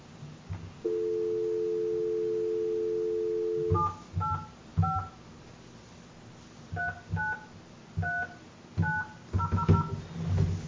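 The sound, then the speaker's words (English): A steady dial tone sounds first, then a misdialed number is punched into a telephone keypad as many short, clear two-tone beeps in uneven groups and quick runs, with no voices. “Well, dang it, I dialed it wrong.”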